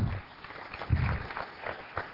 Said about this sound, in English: Give her a little round of applause.